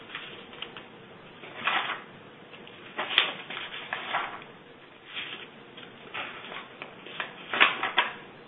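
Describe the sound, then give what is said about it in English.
Typing on a keyboard: irregular flurries of quick, light key clicks, fairly quiet, rising into denser bursts and falling back into short pauses throughout. “Let me type it in.”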